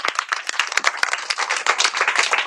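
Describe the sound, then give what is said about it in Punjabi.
Applause for children who have just recited a poem: many quick, overlapping hand claps in a brisk, fairly loud patter, with no talking over them. “ਵਾਹ ਜੀ ਵਾਹ, ਜ਼ੋਰਦਾਰ ਤਾੜੀਆਂ ਬਈ।”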